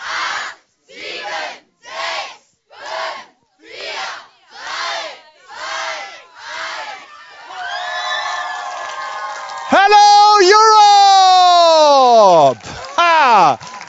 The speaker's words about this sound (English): So, und am Ende vom Countdown tobender Applaus und dann sind wir in ganz Europa zu sehen und zu hören, meine Damen und Herren.